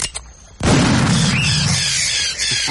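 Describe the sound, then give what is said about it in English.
A single gunshot fired at a large perching bird on an island: a sudden loud boom after a faint opening, followed by a dense, sustained roar of noise that holds for about two seconds. “I do believe it is the first gun fired on this island since the creation of the world.”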